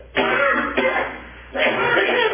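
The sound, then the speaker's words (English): Someone with a scratchy, irritated throat clears it in a few rough, raspy bursts, with a short husky rasp between the louder rasping efforts. “Pardon me again, I got a burr in my throat here.”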